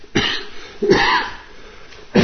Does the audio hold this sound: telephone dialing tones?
no